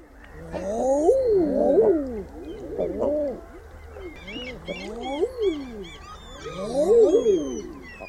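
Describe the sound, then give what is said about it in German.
Common eider ducks call with repeated, overlapping cooing "ah-ooo" notes that swell upward and sink back down. The calls come in several loud clusters, with fainter, higher notes in between. “Und so klingen Eiderenten übrigens super speziell.”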